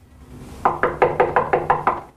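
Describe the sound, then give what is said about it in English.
Eight quick, evenly spaced raps knock on a door by the entrance of a comfortably furnished building hallway. The knocking keeps a steady rhythm at moderate loudness, with no voices. “She steps into the smart, comfortably furnished hallway of the building and knocks on a door by the entrance.”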